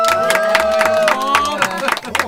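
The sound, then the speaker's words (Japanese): An audience claps to welcome guests onto a show, many brisk, closely spaced claps over a held tonal sound, fairly loud and steady before thinning out at the end. “拍手の数でたくさんいることが分かりましたがね。”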